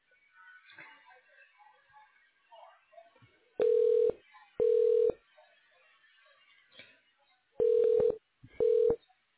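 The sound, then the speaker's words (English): Telephone keypad tones sound while a caller navigates an automated phone menu at a radiology office. Four loud, steady beeps come in two pairs, with a fainter short blip between the pairs over quiet background. “For the medical records team, press 5. For the insurance team, press 6. All other callers, press 8 to be connected to the next available associate.”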